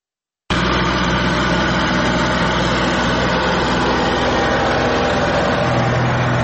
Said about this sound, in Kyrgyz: Эрлан Салжанов төө бурчакты жыйнай турган жабдыкты жасап иштете баштады.